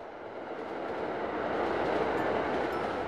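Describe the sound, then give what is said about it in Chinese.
A passenger train bound for Changchun runs in an audio drama sound effect, as heard from a seat inside the carriage. It is a steady, broad rumbling roar that holds at an even loudness throughout. “一列开往春天的火车，连目的地都如此应景，长春。”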